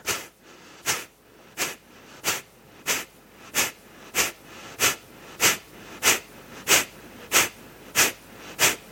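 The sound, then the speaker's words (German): Rapid breathing exercise with quick, forceful exhales and gentle inhales between them, many sharp breathy puffs in a steady, even rhythm of roughly one and a half per second, with no talking. “Probiere es einfach schnell auszuatmen und sanft einatmen.”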